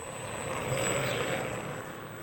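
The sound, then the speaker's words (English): An electric scooter whirs with a thin, steady high-pitched whine over an even wash of bustling street noise, fairly faint and unchanging throughout. “that was the sound of an electric scooter, or e-scooter, add in the further ambience of a bustling street environment.”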